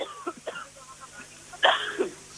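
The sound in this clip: A single short cough breaks through faint background noise, a brief harsh burst about two-thirds of the way in, with a few quieter sounds before it.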